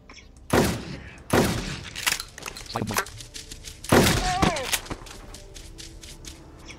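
Gunfire in a zombie shooter video game: a few loud, sharp blasts stand out among quieter shots and clatter, the bursts arriving unevenly across the stretch.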